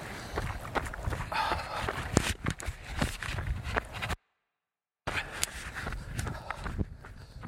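Footsteps of a person running alone on a 10-mile run, a rapid, steady rhythm of strides that continues throughout apart from a brief cut of silence midway.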